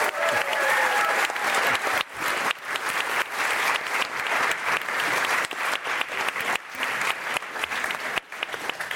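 Sustained audience applause, dense and steady clapping that fills the whole stretch with only a brief dip near the end.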